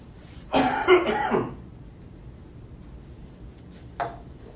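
Coughing and throat clearing from a tickle in the throat: a rough, harsh burst lasting about a second, then after a pause one brief, fainter cough.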